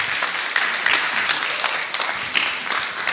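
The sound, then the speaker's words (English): A church audience applauds to welcome guests, steady dense clapping that holds at an even level from start to end. “Just give them another warm round.”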